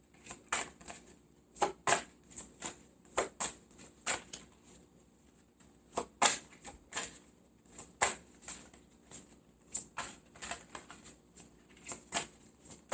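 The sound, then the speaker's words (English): Cards being shuffled and drawn for an Aries reading: many quick, dry riffles and slaps in irregular bursts, faint and with no voices. “May I have two more cards for the sign of Aries, please?”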